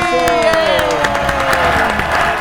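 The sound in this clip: Studio audience applause and cheering welcoming a musician guest on a TV show, steady clapping with crowd noise mixed under music and voices throughout.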